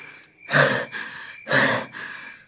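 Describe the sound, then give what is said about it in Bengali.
A person pants out of breath after fleeing charging rhinoceroses through jungle: two loud, rasping intakes of breath, each trailing into a softer exhale, in a slow uneven rhythm with no words. “উঠে বসে হাঁপাতে হাঁপাতে বললে”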